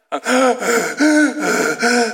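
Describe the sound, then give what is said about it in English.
Gasping breaths of someone catching their breath after struggling up a hill. A quick series of loud, voiced, ragged inhales follows one after another with short pauses between them. “That's what this word actually means, where you're actually able to catch your breath properly. You're able to take that big inhale.”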